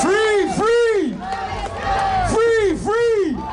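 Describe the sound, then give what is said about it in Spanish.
A crowd at a concert in Vienna protests Israel's participation in Eurovision with loud, rhythmic chanting. The chanted phrases swell and fall in a few repeated bursts, with massed voices blending together. “Este es el sonido de los asistentes al concierto que se está celebrando en la capital austriaca contra la actuación israelí.”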